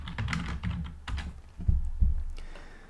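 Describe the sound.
Typing on a computer keyboard: many quick, irregular keystrokes clatter in uneven bursts, with dull low thumps under the clicks and no voices.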